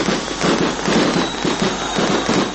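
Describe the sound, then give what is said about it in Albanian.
Fireworks set off to celebrate a homecoming in Kosovo, a loud, continuous wash of dense crackling and bursting with uneven pulses and no clear gaps between blasts. “Për nder të kthimit të tij në Kosovë janë ndezur fishek zjarre”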